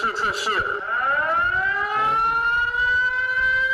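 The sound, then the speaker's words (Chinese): An electronic siren wails from a household flash-flood warning terminal installed in a village home in Fuyang, Hangzhou. After a brief noisy burst, a loud harmonic-rich tone sweeps slightly upward, then holds steady. “这个类似无线信号路由器的终端设备被安装在村民家中，一旦接收到山洪避险信号就会发出报警。”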